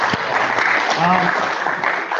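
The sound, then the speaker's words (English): Audience applause after a presentation, a dense, continuous clatter of clapping with voices and a brief cheer audible in the middle. “Round of applause for Patrick.”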